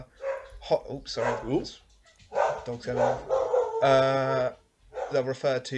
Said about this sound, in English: I might just wait for them to finish barking, to be honest with you.